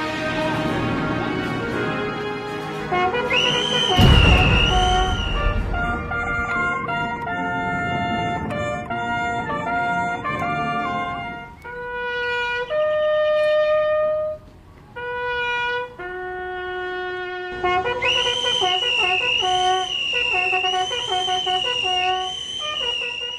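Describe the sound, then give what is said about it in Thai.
Bugle reveille played by a lone signal bugler each morning to wake sleeping soldiers: loud, sustained brassy notes in a changing melodic sequence, with a strong burst early on and longer held tones later, no talk. “ทุกเช้า คนสัญญาณแตรเดี่ยว จะเป่าเพลงปลุก เพื่อปลุกทหารทุกคนที่กำลังหลับไหล ให้ตื่นขึ้นมาปฏิบัติภารกิจประจำวัน”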